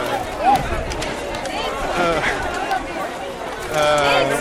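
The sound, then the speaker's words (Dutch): Hubbub of a busy market crowd, with mobility scooters among the people: dense, overlapping chatter and voices at a steady level, growing a little louder near the end. “En het is echt zo'n enorme drukte.”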